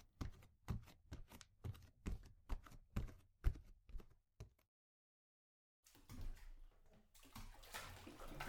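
A bathtub is being filled with water: a quick run of sharp taps stops, there is a short silence, and then a soft, steady rush of running water rises and continues to the end.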